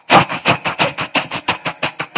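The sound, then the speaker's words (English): A human voice imitates a steam train, a steady run of many breathy, rasping chuffs in an even rhythm, each a short burst of hissing noise, like pistons pumping along the track. “I don't know if I can do my best steam train impression. Let me try.”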